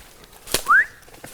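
A person gives one short, rising whistle as a signal for a mushroom find. It sounds clear and fairly loud, with a sharp click just before it and no talk.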